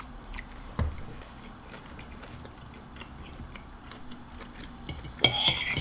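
Cutlery clinking against dishes and quiet chewing during a meal. Faint, scattered ticks and scrapes sit over a low background, with one sharp knock early and a denser cluster of clinks near the end.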